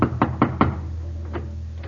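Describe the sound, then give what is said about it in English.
Knuckles rap on a front door: four quick, firm knocks in a tight, even rhythm, followed by a couple of fainter taps, with no voices. “He knocks on the front door.”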